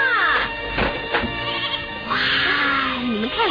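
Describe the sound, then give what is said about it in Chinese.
A flock of sheep bleats as the animals crowd into their pen. Several wavering, overlapping calls, high and low, sound over a constant muffled rumble of movement. “这一百只羊今天很快就进入羊圈，他们都喜欢回到自己的地方。”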